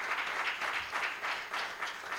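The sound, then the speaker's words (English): Congregation clapping hands in praise during a church service: a sustained wash of steady, even clapping with gentle swells, no voices. “you ought to give the Lord a hand clap of praise tonight for that deliverance”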